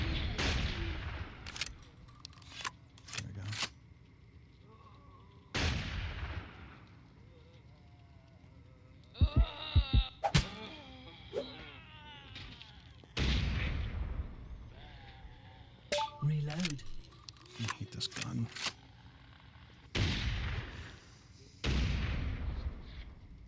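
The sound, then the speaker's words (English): Gunshots from a weak-sounding gun in a video game: sharp, loud cracks at irregular intervals, with a quick burst of rapid shots near the middle and other game sounds between them. “Shoot it a few times and it will turn off. For a while. Reload. This gun kind of sucks.”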